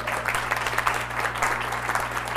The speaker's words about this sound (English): So I don't know, a round of applause for Dr. Richards.